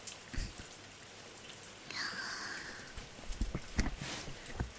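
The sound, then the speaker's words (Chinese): Heavy rain falling, a soft steady hiss with scattered sharper drop impacts that grow more frequent toward the end, all fairly quiet with no voices. “这雨真的是太大了”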